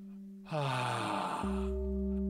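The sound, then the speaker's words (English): A slow, deep breath drawn in, a soft airy inhale lasting about a second over a steady, low sustained musical tone that continues after the breath ends. “close your eyes, take a deep breath, inhale,”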